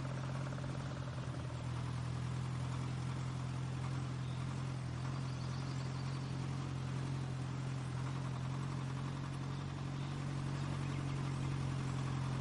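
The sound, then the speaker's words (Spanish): A truck engine runs steadily on a road beside a grove of poplars, giving a constant low, loud hum with no change in pace and no talk. “Su camión se pone en marcha”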